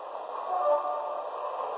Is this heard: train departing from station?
yes